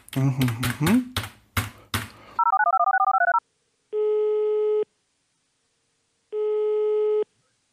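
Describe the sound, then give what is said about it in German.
A telephone call being placed: a quick run of short alternating dialing beeps, then two long, steady ringback tones separated by silence. Some brief sounds precede the dialing. “Dann rufen wir den mal an.”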